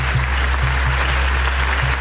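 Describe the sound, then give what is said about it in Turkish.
Sustained applause at a documentary premiere at the Venice International Film Festival, a steady, dense clapping that never lets up, with a low, rhythmic pulsing tone beneath it. “Alkış sesleri 25 dakika boyunca susmadı. Venedik Film Festivali'nde tarihi anlar yaşandı.”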